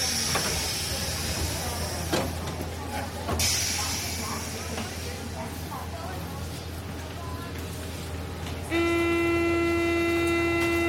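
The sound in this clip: A Paris commuter train runs between stations with a continuous loud rumble and hiss of wheels and carriage. Near the end a steady high tonal whine with strong harmonics cuts in over the rolling noise.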